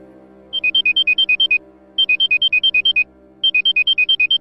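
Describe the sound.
A phone rings during a call home, sounding as three loud bursts of rapid electronic beeps that alternate between two pitches. Short pauses separate the bursts, and no voices are heard.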